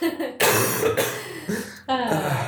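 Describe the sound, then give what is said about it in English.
A person who has been holding back a cough finally lets it out: a few harsh, voiced cough and throat-clearing bursts in quick succession, loud and rough, with no other talk. “He's been holding that cough for a good couple of minutes.”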